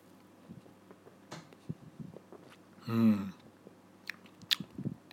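A single loud sip of a slightly carbonated drink being tasted, a short slurping burst midway, followed by a few faint mouth clicks and soft swallowing sounds, with no talk.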